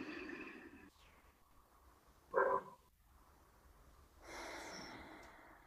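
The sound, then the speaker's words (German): Soft, faint breathing during a calm guided relaxation exercise, with a brief louder breath partway through and a longer, deep breath drawn toward the end. The background is otherwise quiet. “nimmst einen tiefen Atemzug”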